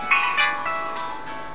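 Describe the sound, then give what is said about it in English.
A mobile phone rings with a melodic electronic ringtone of bright, steady notes, moderately loud and sounding alone. “So now, is that my phone? Oh my gosh, sorry.”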